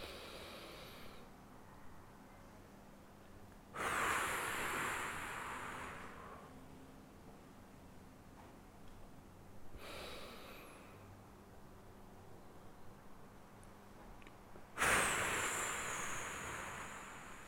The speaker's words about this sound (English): Slow things down by taking a few deep breaths in through the nose and out through the mouth.